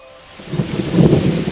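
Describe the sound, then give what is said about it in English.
Rushing rain and wind of a monsoon storm on the coast of Madagascar, an Indian Ocean island, a broad, loud roar that starts quieter and swells into a steady wash of noise. “A monsoon storm on the coast of an island in the Indian Ocean.”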